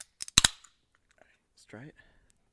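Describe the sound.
A few sharp, snapping metallic cracks as a canned drink's tab is opened in quick succession, followed by a pause and a brief voiced sound.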